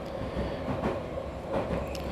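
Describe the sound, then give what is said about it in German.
An express train running from London Heathrow Terminal 5 to Paddington makes a continuous broad rumble with a rattling clatter, steady and fairly loud throughout, with no voices. “Das ist ein Schnellzug, der von London Heathrow Terminal 5 nach Paddington Station fährt.”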